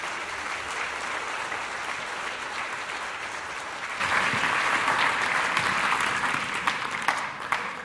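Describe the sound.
An audience applauds to welcome two presenters at a science talk, a steady wash of clapping that swells noticeably louder partway through and continues to the end.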